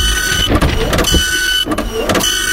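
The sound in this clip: A capybara sound effect plays loudly: a sustained buzzy, tonal sound with a few short breaks and pulses, and no one talking over it.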